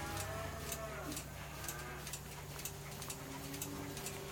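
Dairy cow on its way to the milking parlour, giving a faint, low moo against a steady background hum with soft, regular clicking.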